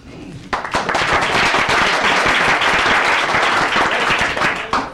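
An assembled body applauding to welcome visitors to Juneau: dense, sustained clapping from many hands lasting several seconds, steady in loudness before tapering at the end.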